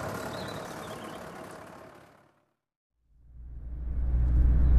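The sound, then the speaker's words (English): A combine harvester arrives in a farm yard. A heavy, low engine rumble swells steadily louder after a brief silence, following an earlier stretch of engine noise that fades away. “Ah, look, perfect timing. Here's Ash with the harvester.”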